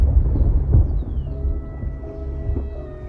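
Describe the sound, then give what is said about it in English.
Low rolling thunder rumbles from a brewing storm, a deep, steady, continuous growl with no sharp crack. “They all look up at the brewing storm.”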